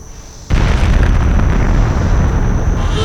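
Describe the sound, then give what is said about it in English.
An explosion sends a pillar of fire erupting beyond a barricade wall at a forward operating base, starting with a sudden blast and then holding a loud, continuous roaring rumble until the end. “A pillar of fire erupted just beyond the barricade wall.”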